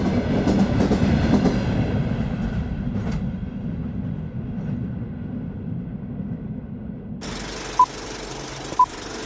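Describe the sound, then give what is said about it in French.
A computer-controlled locomotive pulls a convoy along rails with a steady, rumbling rattle. Near the end a broad hiss swells up, and two short, high tones sound a moment apart. “Le conducteur de la locomotive principale reçoit ses instructions de l'ordinateur qui contrôle le convoi.”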